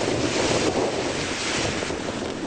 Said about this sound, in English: that's the sound of wind and water in Pensacola, Florida, a city devastated by widespread flooding